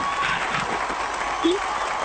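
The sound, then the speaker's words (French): Audience applause and cheering for a contestant on a television show set, a steady wash of clapping throughout with a short vocal cry near the middle. “On acclame, on applaudit pour Reine Esther.”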